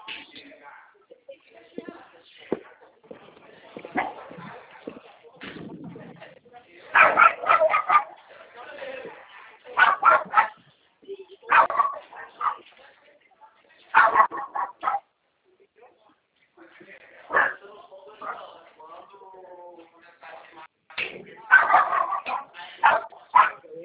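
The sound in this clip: A dog barks in repeated bursts of sharp barks, yips and whimpers, clustered groups separated by short quiet gaps, while people talk intermittently.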